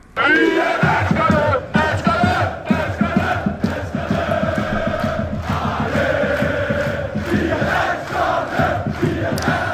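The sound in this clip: A crowd of football fans chants and sings in German streets during the European Championship, a loud, continuous wall of rhythmic voices that keeps going without a break.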